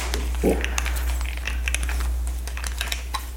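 A plastic bottle of a juice-like drink being opened: a quick run of small, sharp clicks and faint crackles as the cap twists, over a steady low hum.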